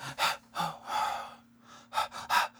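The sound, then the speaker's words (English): Rhythmic half breaths drawn in and pushed out, a series of quick gasping bursts separated by short gaps, loud and alone with no talk, over a steady low hum. “You're sort of having half breaths coming in and out of it. Hmm. Which eventually ended up in this sort of pattern like...”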